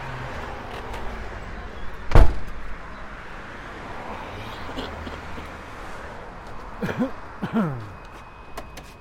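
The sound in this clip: A heavy, solid door shuts with one deep, loud thunk, followed by quieter low background noise.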